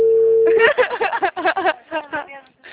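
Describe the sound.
A phone call's ringing tone: a short, steady mid-pitched tone that cuts off as people start talking.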